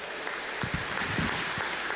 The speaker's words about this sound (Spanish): Un aplauso para ella, por favor.